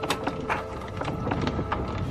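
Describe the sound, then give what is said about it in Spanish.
Crank of a gramophone being wound in a theater room after a record is placed on it: a steady run of many rasping, ratchet-like mechanical clicks in an even rhythm, moderately loud and alone. “Abigail pone un disco en el gramófono y gira la manivela”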